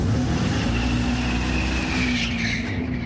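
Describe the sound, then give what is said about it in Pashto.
Engine-like roar from an electric Dodge Charger, a synthetic motor sound standing in for a powerful combustion engine as it revs. The roar stays loud and steady, with a brighter high whine toward the end. “او تر ډیره شاید د انجن په څیر امي، خو په کومه وسیله چې د داج چارجر دا موټر چلیږي هغه د لوړ غاک او خاصه په خوانی قوي انجن نه دی.”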